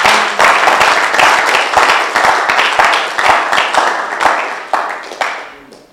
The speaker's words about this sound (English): Why don't you clap for Jesus?